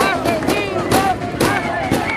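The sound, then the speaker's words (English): Protesters in Caracas banging fists on metal barricades: repeated heavy, booming metallic thuds in an uneven rhythm, loud over a dense roar of crowd voices and shouting. “There, they bang their fists on metal barricades”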